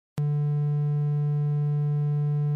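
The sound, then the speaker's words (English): A synthesized triangle wave tone begins abruptly and holds as one steady, low-pitched note at constant loudness, with a soft, slightly hollow timbre. “That sound is called a triangle wave.”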